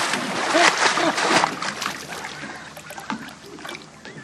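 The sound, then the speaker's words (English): Water splashes as a beginner swimmer kicks and paddles with arms and feet. A steady churning slosh is loudest early and then fades slightly, with a voice speaking briefly over it. “Okay, keep your arms going. Come on. Come on. Feet and arms, both. Keep them going. I'm doing it. I'm swimming.”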